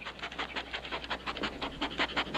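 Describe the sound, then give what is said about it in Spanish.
A dog pants in quick, steady, rhythmic breaths, many short huffs in a row, fairly faint and with no talk over them. “Fíjate qué perro tan tonto.”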